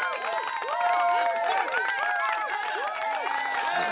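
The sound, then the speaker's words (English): An audience cheers and applauds a guest welcomed onto a show, a loud, continuous roar of many whooping, rising and falling voices that holds steady throughout. “Woo! Guys, give it up.”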